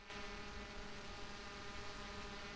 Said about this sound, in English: A drone pilot sits in a dugout and operates the drone with a controller. Footage from the drone as it flies over the wintry landscape.